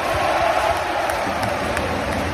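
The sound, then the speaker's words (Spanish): A basketball arena crowd gives an ovation, a loud, sustained roar of cheering and applause that holds steady for the whole clip. “Era una ovación para Nikola Mirotić”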